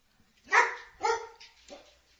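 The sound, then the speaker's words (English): A female dog barks twice, loud and sharp, then gives two softer, shorter yips. There are no voices. “My dog? She's American born. She's, sign her up. As long as she plays defense. She's quick.”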